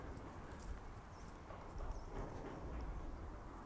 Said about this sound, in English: percussive quality. As the cows go over it.